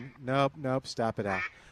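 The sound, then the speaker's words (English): A duck quacks in a few loud, nasal, harmonic-rich calls, one after another with short gaps between them. “Is that a duck? Yeah, that's a duck.”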